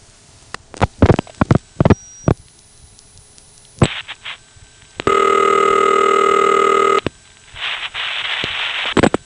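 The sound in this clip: A telephone line makes network tones as a caller dials 1 on a connection through an operator-services trunk. Sharp clicks and short bursts give way to a loud, steady, buzzy tone, followed by a noisy hiss.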